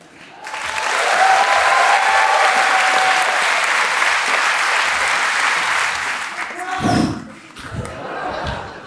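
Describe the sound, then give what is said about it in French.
Live audience applause at the 100th performance of a stage show at La Cigale, rising quickly into loud, sustained clapping, then tapering off with a few heavy thumps near the end. “On est assez content que vous applaudissiez maintenant parce que vous avez vu la meilleure partie du spectacle.”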